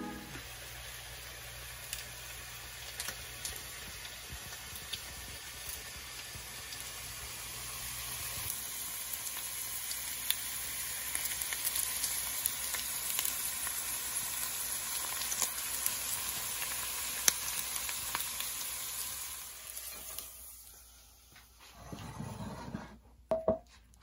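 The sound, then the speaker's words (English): Food cooks in a pan with a faint, steady sizzle and scattered crackles, continuing for about twenty seconds before it quiets, followed by a few brief rustles. “It's Black Hoodie, I'm back cooking these goodies. Look at these views from cooking these foods.”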